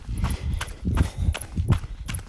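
Running footsteps from a runner at an easy pace of six minutes per kilometre, on a run through countryside below a large mountain. Soft, muffled thuds repeat at a steady, even cadence.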